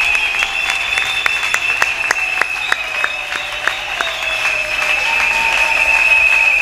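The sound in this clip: Congregation applause at a church service acclaiming God: many sharp claps in a steady, even rhythm, continuing loud and unbroken from start to finish.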